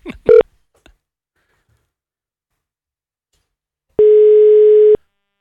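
A telephone ringing tone sounds as one loud, steady, buzzing ring lasting about a second. A couple of short tones come near the start, followed by silence.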